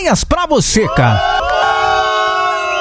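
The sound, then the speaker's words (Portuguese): Crowd booing used as a mock jeer: a few brief shouts give way to a long, sustained, steady boo that holds loud to the end. “Porra de formiga essa hora, rapaz. Vaias pra você,”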